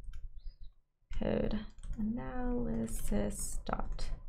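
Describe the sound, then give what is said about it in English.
Typing on a computer keyboard while entering a long package name: quick plastic key clicks, mostly buried under a person talking, with a brief pause before the voice begins. “So over here, I'm just going to type that in. So bear with me, because it's a lot to type in.”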